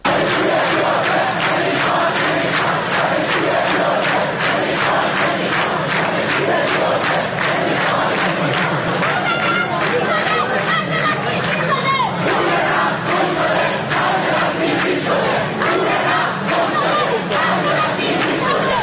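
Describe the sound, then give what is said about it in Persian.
Students chant protest slogans at a rally at the University of Tehran, a loud, dense crowd roar with rhythmic pulses of shouting throughout, and chatter mixed in. “امروز در دانشگاه تهران هم دانشجوها برای ساعاتی دست به تجمع زدن و شعارهای مختلفی رو میدادن، از جمله اینکه پول نفت گم شده، خرج بسیجی شده.”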